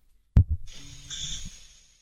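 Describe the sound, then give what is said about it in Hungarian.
A sharp, loud snort from a person with sleep apnea, followed by a drawn-out, breathy exhale that fades away to silence. “a horkolásra lendületes légzés kimaradások állnak fönt. A pihenés szempontjából fontos mélyalvást is zavarja. A légutak ilyenkor részben vagy teljesen elzáródhatnak, oxigén hiányos állapotot eredményezve.”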